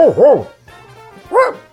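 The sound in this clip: A voice imitates a dog barking, giving two quick, loud barks, then a softer low stretch, then a third bark.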